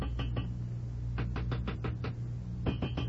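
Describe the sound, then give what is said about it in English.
Knuckles tapping on a metal radiator in quick, sharp raps, grouped into three short bursts of several knocks each, with brief pauses between bursts and no voices. “I was just tapping on the radiator. See? Like this.”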